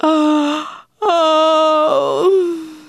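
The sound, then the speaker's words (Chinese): A voice imitates yawning by tired people: two loud, drawn-out, tonal moaning yawns. The first lasts under a second. The second is longer, wavers partway through and then fades. “就一个个张大着嘴巴，打着哈欠，”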